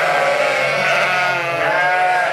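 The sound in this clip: Ewes bleating in a sheepfold, many overlapping nasal bleats forming a continuous, fairly loud chorus with no pauses.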